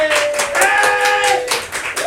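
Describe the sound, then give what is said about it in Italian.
Audience applause during an informal applause-meter vote for contestants: loud, uneven clapping in surging bursts, with voices whooping and cheering over it. “Fatemi un applauso per Anna da fuori. Ok. Grazie. Un applauso per Mati.”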